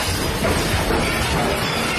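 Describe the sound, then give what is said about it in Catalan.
A building collapsing during an earthquake in Caracas, captured on a mobile phone: a dense, loud, continuous roar of crashing and shattering debris filling the whole clip. “Aquest és el moment en què cau un edifici a Caracas.”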